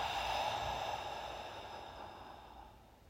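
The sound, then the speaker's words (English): A deep breath is exhaled through an open mouth: a single breathy, airy sigh that starts fairly strong and gradually fades over about three seconds, with no talk. “Take one deep inhale to feel your breath in your belly. And exhale through an open mouth.”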